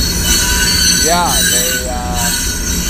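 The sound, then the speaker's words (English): Wheels of a passing train squeal, producing high, wavering screeches that bend in pitch over a constant loud rumble of the rolling cars. “Fuck this fucking train.”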